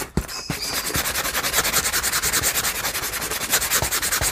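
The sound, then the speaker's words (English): Sandpaper is rubbed back and forth along a rough edge in many quick, even strokes, a steady rhythmic scratchy hiss that keeps going with no talk. “But first, let's sand the other side of this rough edge.”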